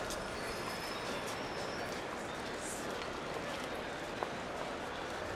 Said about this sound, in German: Der Zug fährt ein.